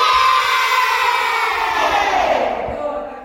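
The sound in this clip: A group of children shout and cheer together in a loud, dense mass of voices. The noise holds steady, then tapers off slightly toward the end.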